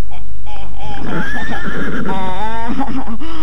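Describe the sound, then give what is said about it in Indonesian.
A horse neighs loudly in a long, shaky, high-pitched whinny over a constant low rumble. “Benar-benar pandai kuda itu”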